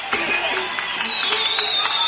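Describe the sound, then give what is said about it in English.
Audience applause at the Grand Ole Opry show rises right after a performer is introduced, a steady, dense wash of clapping from a crowd that holds for about two seconds. “Star of the Grand Ole Opry, here's Cowboy Copas. Let's give him a hand.”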